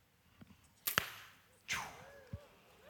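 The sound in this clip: An arrow loosed from a drawn bow during an onstage archery demonstration gives two sharp, snapping bursts, with a few smaller clicks around them and quiet between.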